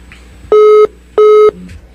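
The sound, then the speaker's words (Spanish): Busy tone from a telephone line dropping during a radio call-in: two short, steady electronic beeps in quick succession, loud over a low background hum, with no voices. “Se nos fue de nuevo la llamadita”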